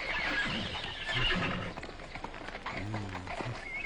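A horse neighs against a dense, noisy background. A short, wavering harmonic whinny stands out near the end.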